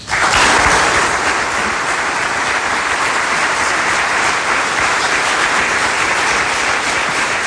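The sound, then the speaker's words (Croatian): Audience applause at a Police Day ceremony honoring award recipients: loud, steady clapping that swells at the start and continues evenly throughout. “Molim vas da još jednim snažnim pljeskom pozdravimo sve nagrađene.”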